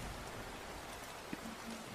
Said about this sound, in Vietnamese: Cơn mưa xối xả làm hai vợ chồng gã rét run cầm cập.